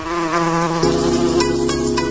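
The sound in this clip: Buzzing of a female Anopheles mosquito, a steady, thin, high-pitched whine rich in overtones that drops slightly lower in pitch partway through and continues alone without pause.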